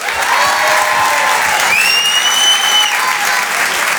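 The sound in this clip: A comedy club crowd applauds while a comedian is introduced, with thick, even clapping throughout. A shrill whistle rings out above the applause midway through.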